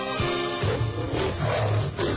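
Lions roar in deep, rough, overlapping growls that shift in pitch, with a continuous roar carrying on throughout.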